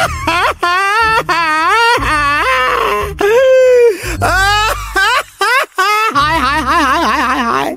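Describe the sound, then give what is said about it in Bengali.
A man wails and sobs loudly in repeated bursts, his voice quivering and wavering in pitch, broken by short pauses. “তাই শুনে লোকটা আবার ভেউ ভেউ করে কাঁদতে লাগলো”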